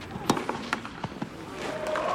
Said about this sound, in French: Jabber a voulu attaquer en long de ligne, en coup droit, mais sa balle a pris la bande. Vous l'avez entendu. Ce bruit sec de la balle qui heurte la bande du filet.